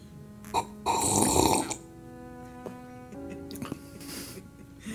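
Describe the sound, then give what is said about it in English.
A slurping sip of an extra frothy drink: a noisy, airy burst about a second long, a softer second sip later on, with faint hums and small mouth sounds between. “oh, here's a little beverage.”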